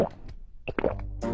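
A small can is tossed away and lands with a quick, hollow plop, a brief sound effect that comes and goes within a second.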